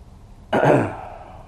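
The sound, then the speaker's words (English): A single rough throat-clearing cough from a person with a lingering cough. It is one short, loud burst that fades within a second, with no speech around it. “Have to bear with me. Got a little cough still.”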